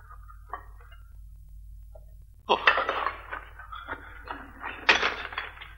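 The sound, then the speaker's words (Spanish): Ceramic pieces and stones clatter as they are moved at the mouth of a pottery kiln. A few faint, scattered knocks come first, then a louder run of clinking, scraping knocks that carries on to the end. “protege sus manos con paja y coge una cerámica del suelo. Aparta piedras de la boca del horno y saca más piezas.”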